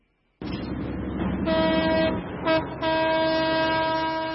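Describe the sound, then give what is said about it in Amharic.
A century-old, French-built train leaves Dire Dawa station loudly in the pre-dawn dark, its rumble joined by three horn blasts: a long one, a short one, then another long one held to the end. “ባቡር ከድሬዳዋ ጣቢያ ከፍተኛ ድምጽ እያሰማ ይወጣና በንጋት ጨለማ ውስጥ ይሰወራል።”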